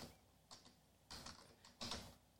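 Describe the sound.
Typing on a computer keyboard, quiet keystroke clicks arriving in a few short bursts separated by brief pauses.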